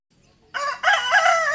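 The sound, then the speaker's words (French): Roosters crowing at daybreak in a village: a loud, bright, harmonic crow that breaks briefly and then carries on as a sustained, wavering call. “Les coqs chantent et jour paraît, tous et debout dans les villages. Le coq chante.”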